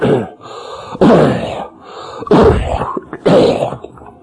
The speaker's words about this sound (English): My apology, I've got some congestion throat problem. I couldn't hit the machine quick enough there when I suddenly started to choke for a second.